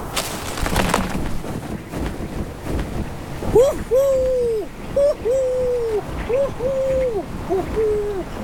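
Hooting calls of a male snowy owl near its nest come in a series of short, mid-pitched, slightly arched notes in the second half, following a stretch of steady background noise.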